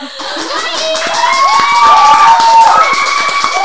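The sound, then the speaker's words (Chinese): A live studio audience cheering and applauding, with voices shouting over dense, steady clapping that builds slightly louder. “欢迎，大家非常的热， 先强调一下，那不是罐头音效。 对，那个是现场的音效。”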